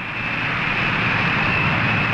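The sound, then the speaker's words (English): The presidential airplane Spirit of 76 taxis on the runway at Peking Airport with a steady, even engine drone and a thin high whine on top, continuous and unbroken, with no voices. “Christened the Spirit of 76, taxis to a stop on the runway of the Peking Airport.”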